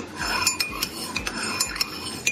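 A spoon stirred inside an empty cup, making a steady series of light metallic clinks and scrapes against the sides, bright and quick, with no voices.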